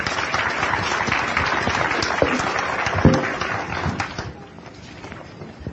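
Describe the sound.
Applause from an audience welcoming a speaker to the stage, a dense, steady wash of clapping that fades noticeably in its final second or so.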